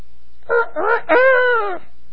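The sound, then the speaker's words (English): A rooster crows once, loud and alone: two short opening syllables followed by a long, sustained, harmonic final note, with silence before and after. “rooster crows.”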